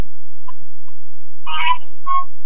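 Short electronic telephone call tone, two brief bright bursts a little over half a second apart, preceded by a few faint blips over near silence, with no talk.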